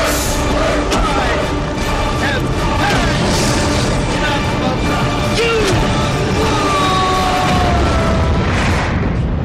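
Starship weapons fire and explosions from the Enterprise under attack in Star Trek: a dense, loud, continuous roar of booming blasts and crashing effects with scattered zaps and whines throughout.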